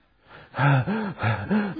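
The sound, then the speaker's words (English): A voice imitates the out-of-breath panting of unfit guards carrying machine guns who stopped halfway up the stairs at an airport. Four quick, voiced, gasping breaths are heard alone. “Panting. They were so unfit.”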